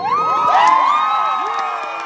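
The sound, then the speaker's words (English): A crowd cheers at a high school state championship trophy ceremony as a team walks up to accept the trophy. The cheering is loud and continuous, with high-pitched whoops and shouts rising over it. “The cheers drown out an announcer's voice as seven skinny boys walk up to accept their high school's 26th trophy.”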